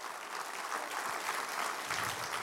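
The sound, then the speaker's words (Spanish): A church audience applauding during a sermon, with continuous, dense clapping at a steady moderate level and a slightly fuller, heavier texture toward the end. “Si lo va a aplaudir, aplauda no a mí, a Dios, pero con ganas hágalo.”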